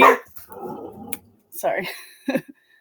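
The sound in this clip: A dog barks in a few short, sharp bursts with some yipping, mixed in with a person's voice.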